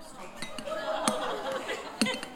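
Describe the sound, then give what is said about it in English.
A spoon stirs mayonnaise in a mug or wine glass, giving a few light, bright clinks against the vessel scattered over a soft scraping swirl, with a person talking throughout. “You squeeze the mayonnaise into your mug or your wine glass. This is... What is wrong so far with this? You then get your spoon. You mix it around.”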